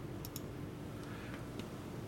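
Faint computer mouse clicks: a quick pair of sharp ticks near the start, then a few softer single clicks over steady low hiss.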